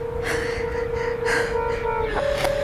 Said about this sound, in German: Atmen. Ich hole Luft.